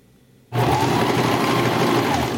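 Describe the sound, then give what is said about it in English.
A sewing machine stitches during a sewing class, starting abruptly after a short quiet moment and then running as a steady, dense whirring hum at an even level. “Stitch by stitch, with a machine or by hand, students learn the craft of sewing.”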